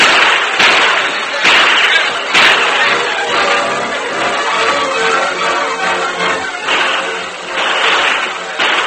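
Gunfire sound effects in a radio drama gunfight: several sharp cracks burst out over a dense, loud wash of noise that persists through the whole stretch.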